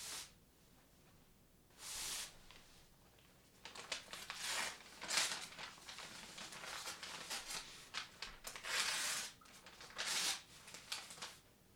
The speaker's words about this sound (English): All right, well, I'm going to unwrap it here.